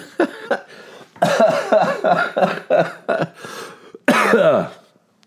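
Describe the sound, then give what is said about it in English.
A person coughs in a rough, repeated fit: a couple of short hacks, then a dense run of many harsh coughs, a few more spaced bursts, and a final loud, drawn-out coughing burst, with no talking between them. “sorry. I'm still coughing because I haven't tried the Montelukast”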